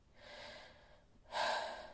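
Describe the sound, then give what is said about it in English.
A deep breath is drawn in slowly, then after a short pause comes a louder, breathy exhale. It is soft overall and no one talks. “Then he takes a deep breath, inhales, lets it out.”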